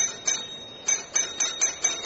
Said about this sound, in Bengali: কি চাল দেব ভাবছি, এমন সময় কলিং বেল বাজল।